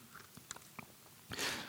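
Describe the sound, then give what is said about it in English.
A faint sip of water: a few soft mouth clicks and light smacks, then a brief, slightly louder slurping swish near the end. “And with that, I'm going to have a sip of water.”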